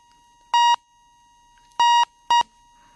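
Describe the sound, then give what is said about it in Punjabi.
Disconnect beeps after a telephone call is cut off: three loud, steady electronic tones separated by silence, the first two longer and the last one shorter. “ਲੱਗਦਾ ਕਿਸੇ ਕਾਰਨ ਕਰਕੇ ਉਹਨਾਂ ਦਾ phone call ਕੱਟ ਹੋ ਗਿਆ”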